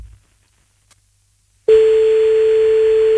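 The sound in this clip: A steady single-pitched telephone tone sounds as a call is placed. Near silence comes first, then the tone starts abruptly and holds, loud and unchanging, to the end.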